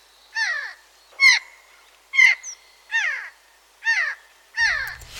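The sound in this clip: Six harsh, raucous screeches from a Eurasian jay, each short and rasping, spaced at fairly even intervals about a second apart against a quiet background.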